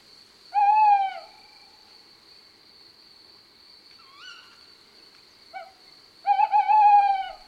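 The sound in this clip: A male tawny owl gives his two-part hooting call: a clear, loud hoot, a long pause with fainter short notes, then a longer wavering, tremulous hoot. A steady high insect trill runs underneath throughout.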